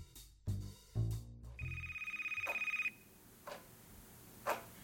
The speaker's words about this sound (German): Sie kann einfach kein Telefon klingeln lassen. Es geht einfach nicht.